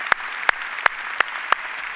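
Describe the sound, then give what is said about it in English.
An audience applauding in a steady wash of clapping, with five sharp, evenly spaced louder claps standing out above the crowd. “Let's give them a big hand.”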